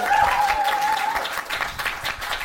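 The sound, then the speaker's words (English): Audience applause at the close of a live show, a dense, steady wash of clapping with a brief whistle near the start, moderately loud and without talk. “let's just give a huge round of applause to our amazing David Deverell”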